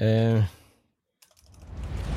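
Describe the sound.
Typing on a computer keyboard: a rapid patter of key clicks begins after a brief voice and a short silence, then grows steadily louder.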